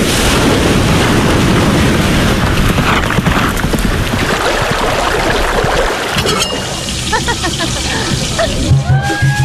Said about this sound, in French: Ça, c'est le son de la Réunion.